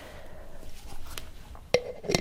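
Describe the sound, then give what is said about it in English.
A metal lid is set onto a cooking pot with a sharp clink and brief ringing, then a second softer clatter, over faint low background noise. “Lid on for now.”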